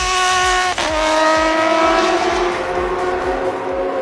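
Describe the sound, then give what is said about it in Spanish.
Racing car engines roar at full speed, a high engine whine dropping abruptly in pitch early on, then settling into a loud, steady, buzzing drone that holds to the end. “ruido de autos funcionando bien, gracias a los repuestos de la central”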